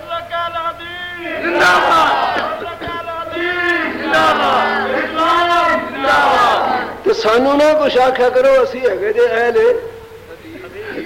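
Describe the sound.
A crowd roars back in unison in answer to the Takbir slogan at a religious speech. Loud massed voices chant in several sustained surges, with brief dips between them.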